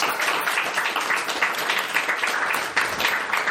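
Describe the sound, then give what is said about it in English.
An audience at a writers' festival event applauds to welcome an author, a dense, loud, continuous crackle of many hands clapping that holds evenly throughout. “Can you please put your hands together to welcome her?”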